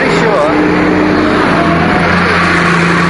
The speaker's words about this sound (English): That's the bus you would have got on.